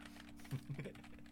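Faint typing on a computer keyboard: a few soft key clicks in a quick, uneven cluster over a low, steady background hum.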